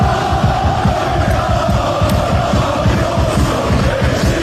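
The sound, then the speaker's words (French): A Turkish football crowd roars loudly and continuously, with a dense wall of voices. Rhythmic pulses run through the noise from start to finish. “plongés dans l'ambiance survoltée et assourdissante du fabuleux public turc, Bruno Blanza. Il y a le bruit.”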